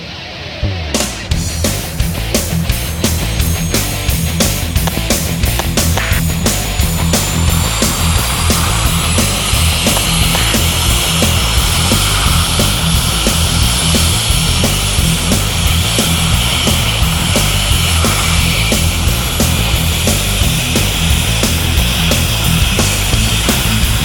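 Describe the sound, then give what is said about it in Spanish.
Airplane engine roaring during takeoff, used as a radio sound effect. A loud, steady roar runs the whole length, with a thin high whine that starts abruptly near the beginning and carries through to the end. “Viento 90 grados. Nave del Rock 001. Autorizado despegue. A rock and rollear. Autorizado despegue.”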